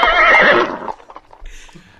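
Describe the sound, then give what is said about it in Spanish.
A horse whinnies loudly once, a high, shaky neigh that trails downward, followed by quieter snorts and scattered softer noises. “el caballo no es mío. Bueno, está aquí, pero el caballo de Chuck Norris.”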